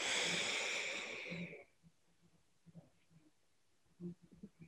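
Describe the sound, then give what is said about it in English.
A deep breath drawn in during a breathwork exercise: a soft, breathy inhale of over a second that gradually fades, followed by faint scattered sounds. “So take a deep breath in.”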